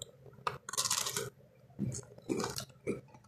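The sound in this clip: Biting and chewing a lemon-flavoured Oreo cookie gives several crunchy, moist bursts separated by short pauses, with no talk.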